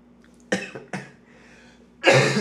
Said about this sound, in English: The coughing fits like happen at night, obviously.